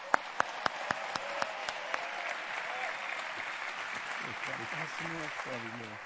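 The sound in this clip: A church audience applauds to welcome a guest speaker. A few separate sharp claps build into steady, dense applause, and a voice speaks over it near the end.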